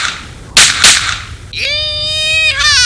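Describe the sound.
Two sharp gunshot cracks ring out in quick succession, followed by a high, drawn-out shouting voice.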